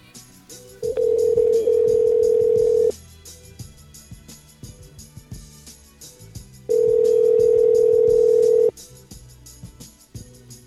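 After a call is cut off, a telephone line gives two long, steady electronic tones of about two seconds each. A silent gap separates them, and faint line noise and clicks run underneath.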